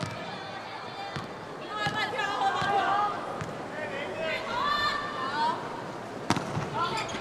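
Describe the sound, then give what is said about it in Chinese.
Sharp ball strikes ring out during a volleyball match between China and Chinese Taipei as a serve is hit, a few crisp impacts standing out over steady commentator talk and a murmuring crowd. “中国队换上杨淑明来发球。”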